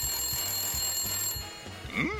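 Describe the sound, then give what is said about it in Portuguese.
A telephone rings at home in a steady, repeating pattern of buzzing bursts, each ring evenly spaced and moderately loud. “Peraí, telefone, eu já volto.”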